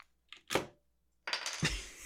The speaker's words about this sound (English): I've taken the backspace key out of my keyboard.